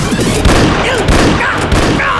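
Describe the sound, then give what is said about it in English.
Dense rapid gunfire with bullets pounding into a body during a shootout by an adobe wall, loud crackling bursts packed tightly together with a few heavier thumps standing out. “bullets pounded into Steve Lachlan's body, making him do a jittery little dance”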